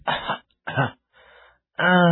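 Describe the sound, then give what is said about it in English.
Coughing of a sick boy, voiced in a spoken story: two harsh, throaty coughs followed by a softer, fainter one, then a voice begins speaking. “The sick boy kept coughing in the dark room alone.”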